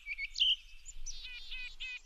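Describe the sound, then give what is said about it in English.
Winter bird calls from small birds such as chickadees, nuthatches and solitaires: faint, high chirps and short trilled notes in a few bursts, with no voices. “You often hear chickadees, nuthatches, and solitaires before you see them, as their plumage is neither colorful nor splashy. If you notice these calls on a winter's day”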